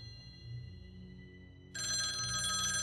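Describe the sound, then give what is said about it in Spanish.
A telephone bell starts ringing partway through, cutting in abruptly over a quiet low hum and continuing as a bright, sustained, even ring to the end. No voices are heard. “El teléfono de Raquel comienza a sonar.”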